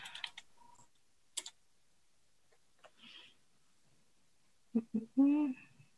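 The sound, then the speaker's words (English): Computer keyboard typing as a search term is entered into genomics analysis software: a few sparse, soft key clicks scattered through near silence with long gaps between them. “if you type in variant, you have lots of options. The ones I wanted to show you, let's type in.”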